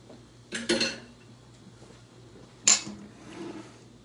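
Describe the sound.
A spoon and other utensils are taken out in a kitchen. Two sharp metallic clinking clatters stand apart with quiet between them, followed by a fainter rattle.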